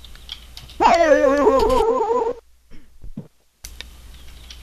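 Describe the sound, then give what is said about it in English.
A dog whimpers in a long, wavering, high-pitched whine that rises and dips repeatedly before cutting off, followed by a few faint short yips. “I don't know what to do about this dog, though.”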